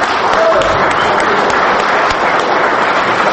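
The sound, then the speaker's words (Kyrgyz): Dense applause at a press conference where Atambayev announced withdrawal from the presidential election, a steady, continuous wash of many hands clapping that holds an even loudness from start to finish. “Атамбаевдин билдирүүсү ушундай кол чабуулар менен коштолду.”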